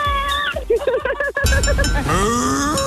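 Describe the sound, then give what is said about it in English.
A cow moos at the end of a song: a drawn-out, low, harmonic call follows a run of pulsed musical notes. “They called me on 131065 when they heard Bessie the cow moo at the end of a song. She's going to do it again very soon.”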